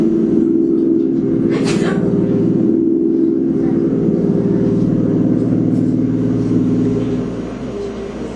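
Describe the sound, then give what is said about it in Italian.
Small airplanes fly over the border region of Alto Adige in May 1945, dropping leaflets. Their engines give a loud, steady, low drone throughout, easing slightly near the end. “gli americani il 3 maggio decidono di utilizzare dei piccoli aerei per lanciare sulla frontiera autoadrice dei manifestini”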